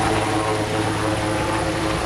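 A helicopter flies during a sea rescue drill staged around a collision between two commercial ships, with crew evacuated from the water. Its dense, steady rotor and engine roar stays loud and constant throughout.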